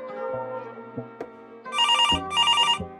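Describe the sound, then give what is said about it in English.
A telephone rings for an incoming caller in two trilling electronic bursts, each about half a second long, over a background of soft, sparse musical notes. “Oh, it looks like a caller's coming in. So let's listen to what they have to say.”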